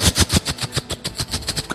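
Rapid automatic gunfire from soldiers ordered to shoot when doors will not open: many sharp, evenly spaced loud bursts in a fast steady rhythm, with no talk.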